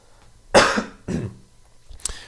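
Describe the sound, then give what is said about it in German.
Two loud, rough coughs come in quick succession, followed by a fainter, short sound, with no talking around them. “Jetzt muss ich kurz husten.”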